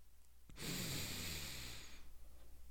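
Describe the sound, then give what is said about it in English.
A voice imitates fluttering, nostril-flapping breathing: one long, loud, airy nasal exhale with a rough flutter, then softer, steady breathing that trails off. “a little nostril flappage. A little breathing.”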